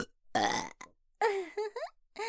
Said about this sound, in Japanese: ごめんなさい、びっくりしましたよね。豚鼻でも、ゲップしても。